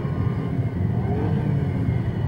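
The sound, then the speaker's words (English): A Porsche sports car's engine roars along a country road, a steady, low, throaty drone with a smooth whir that holds an even level throughout. “A Porsche sports car roars along a country road.”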